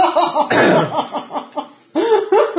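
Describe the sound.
Harsh coughing follows choking on ginger beer. It comes in a few abrupt, loud bursts broken by short pauses, with some throat clearing between them.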